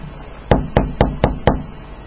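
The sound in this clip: Knocking on a house door: five sharp, evenly spaced raps at a steady moderate pace, loud and distinct over a quiet background, with no voices.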